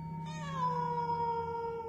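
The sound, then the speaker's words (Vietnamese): A cat meows inside a house in one long, drawn-out cry that starts clearly and slides gradually lower in pitch as it fades, heard alone without voices. “Con mèo cứ quanh quẩn kêu lên từng hồi, tiến về phía góc nhà.”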